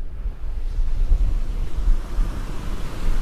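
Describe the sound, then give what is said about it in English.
Wind on the coast with waves crashing: a steady low rumble of surf and gusting air that continues throughout without clear breaks. “This is going to be the sound of some wind on the coast.”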